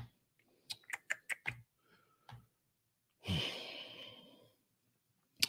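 Keystrokes on a computer keyboard as a web address is typed: a quick burst of about five sharp clacks, a couple of isolated taps, a long breathy exhale, then one final faint tap.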